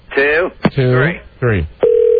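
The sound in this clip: A telephone dial tone sounds on a line after the caller hangs up, a steady, unbroken tone that comes in at the end after a few short voiced sounds and runs on alone.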